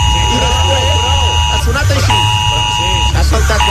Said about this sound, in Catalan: si vol tornar a sentir l'alarma